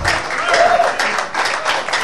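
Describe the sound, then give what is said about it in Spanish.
An audience applauds during a Spanish-language church sermon. The clapping is steady and dense, and a voice rises over it. “Ese es lo fuerte, el aplauso.”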